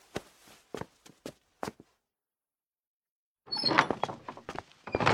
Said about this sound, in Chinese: 破旧的小门被推开之后，两人闪身入内，门又重新关上。